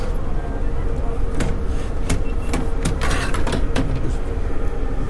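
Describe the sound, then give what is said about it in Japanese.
An inner window of an old JNR-era train car is opened, with the original seats nearby. Several sharp clicks and rattles from the frame sound over a steady low rumble. “あのこの今ちょっと内側の窓を開けたんですけど”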